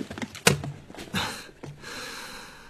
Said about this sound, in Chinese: 一边弯腰关上皮箱